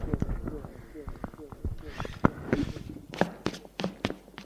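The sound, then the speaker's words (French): Running footsteps of a man land as many quick, sharp impacts in an uneven rhythm, fairly loud and percussive, with the heaviest strikes coming in the middle and later part. “Il court vers le prêtre.”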